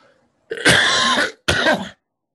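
A person with a tickle in the throat coughs and clears it in two harsh, raspy bursts, the first longer than the second, loud and alone.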